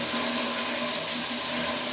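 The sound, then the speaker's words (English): Shower water streams down steadily in an even, continuous rushing hiss that holds the same loudness throughout, with no voices. “She pauses as the water streams down her body, then jolts away from the shower head once more.”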